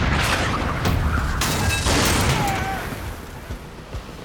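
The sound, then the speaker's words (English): Gunfire from a Spanish galleon's stern guns in a long-range naval exchange, heard as a loud, dense, rumbling barrage of booms that eases toward the end into a few separate thuds. “But before they have said their amens, the enemy opens fire.”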